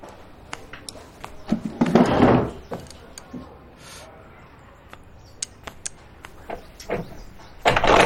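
A door being locked from the inside: irregular sharp clicks and knocks, broken by a few louder rattling, scraping bursts, with quieter stretches between them.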